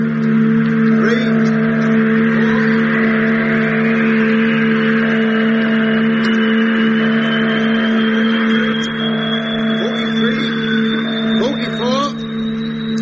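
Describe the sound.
A loud, steady engine drone runs through the whole clip after an engine start with a flywheel. The hum is rich in low harmonics, and a thin high whine climbs slowly toward the end.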